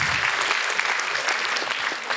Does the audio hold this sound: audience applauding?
yes